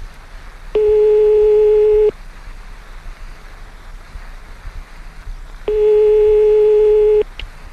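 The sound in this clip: Telephone calling tones while dialing someone: two long, steady tones, each about a second and a half, separated by a pause of several seconds over a faint low hum.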